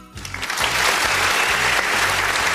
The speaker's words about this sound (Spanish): Un fuerte aplauso para Albert Trujen.